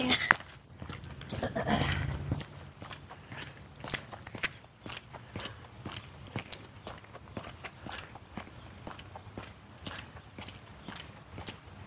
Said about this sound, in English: Lady working hard here, doing a race walk.